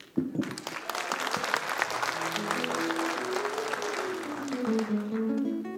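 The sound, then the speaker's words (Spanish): An audience votes by applause at a live event, clapping loudly and steadily throughout, with voices calling out over the clapping. “Hagámoslo por aplauso, igual que los concursos de la tele.”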